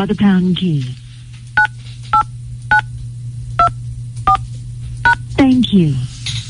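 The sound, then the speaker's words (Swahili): Telephone keypad tones as a number is dialed to call a listener: six short, evenly spaced beeps, with talk just before and after. “Kwa hivyo acha tumpigie Juma ama bwana Nyongesa ili tusikie kesi yake na tuone vile tunamsaidia.”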